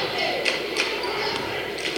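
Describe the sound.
A basketball is dribbled on a court during a game, heard as a few dull, evenly spaced bounces under a steady, noisy background.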